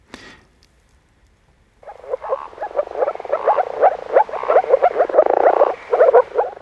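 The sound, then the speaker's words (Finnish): Moor frogs croaking in a chorus: after a quiet opening, many soft, rapid, bubbling calls overlap and build into a steady, fairly loud stream. “Viikon luontoääni Viita Sammakko saattelee Politiikka-radion piiriin.”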